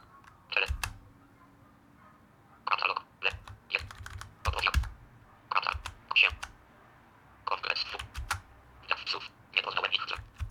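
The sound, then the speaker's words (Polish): Keys pressed on a talking device while it searches: short clusters of crisp clicks in irregular bursts with gaps between them, quiet and close. “Idę na początek, żeby się przenieść do końca, naciskam te lewy, prawy i K. On też trochę sobie popyka, aczkolwiek troszeczkę inaczej. Jak szuka, no pyka z przerwami”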